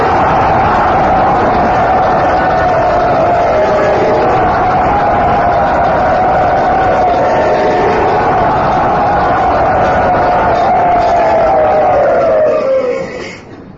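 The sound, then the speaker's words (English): A crowd at a temple loudly cheers to welcome a guest. It forms a dense, unbroken roar of voices that holds steady for about thirteen seconds and then fades at the end. “very enthusiastically, very loudly, very warmly welcome His Holiness Srila Satchinanda Maharaj to Sri Radha Gopinath Temple.”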